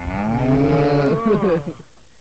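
Cattle mooing: a long, low, drawn-out bellow whose pitch bends toward the end before it cuts off into quiet.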